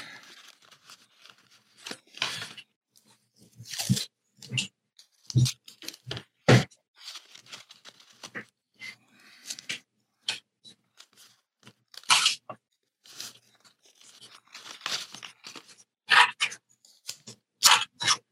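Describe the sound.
Adhesive tape pulled and torn while pieces are taped together into an octahedron model, many irregular short rips and crackles, faint rustling between the louder bursts.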